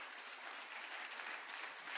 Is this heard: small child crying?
no